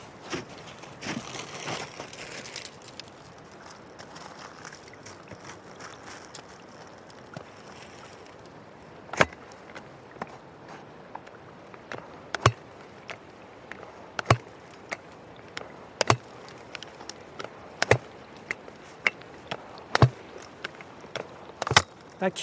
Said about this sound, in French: Là, là, ça tape sur la glace. Là. doucement.